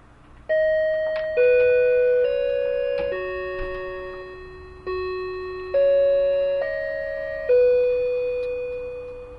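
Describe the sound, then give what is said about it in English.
A wireless plug-in door chime plays a four-note melody of clear, ringing electronic tones, then repeats it. Each tone starts sharply and fades slowly, and the notes are evenly spaced. “I got this wireless door chime thing. So I'm going to let you hear that all right now.”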